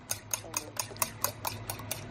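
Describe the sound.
Whisking six eggs in a bowl for cachopo: a steady run of quick, rhythmic strokes, each a short, bright scrape at an even pace over a low hum.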